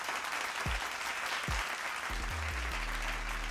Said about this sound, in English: Let me get a round of applause all lined up right now.